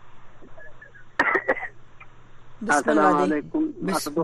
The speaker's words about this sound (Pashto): شما ریزش کردین ببخشین سلفه کردین